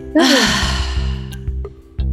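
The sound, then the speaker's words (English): A deep breath drawn in and let out: a long, airy rush of breath that slowly fades, followed by a few faint clicks over a steady low tone. “let's end with taking a deep breath letting it out inhale”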